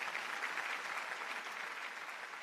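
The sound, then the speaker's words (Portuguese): Theatre audience applauding a composer who returns to the stage to take a bow, a faint, continuous ovation of many hands blending into an even hiss of clapping. “Os aplausos são tantos que o compositor volta ao palco para agradecer.”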